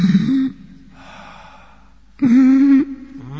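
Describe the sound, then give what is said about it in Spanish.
Heavy, gasping breaths attributed to a ghost haunting the third floor of a palace building, voiced by a person. Two loud, rasping breaths frame a longer, softer exhale, with a brief catch at the end. “algunas noches, en la tercera planta del edificio, se oye un respirar pesado.”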